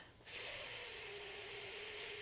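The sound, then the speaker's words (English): A long, steady hissing breath, exhaled as a breathwork technique for releasing anger. It starts abruptly after a brief silence and holds bright and even to the end, with no talking over it. “for anger, you want to basically like make a hissing noise”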